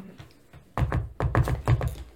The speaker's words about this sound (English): Okay, so you guys are knocking on the door.